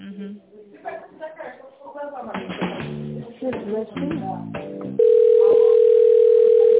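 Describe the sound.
A telephone tone heard as an office call is transferred: people talk at first, then a loud, steady, unbroken electronic tone takes over and holds to the end.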